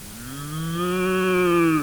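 A cow gives a single long, low moo that holds a steady, resonant pitch for nearly two seconds, swelling slightly louder before it cuts off.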